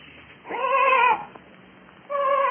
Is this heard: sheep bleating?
yes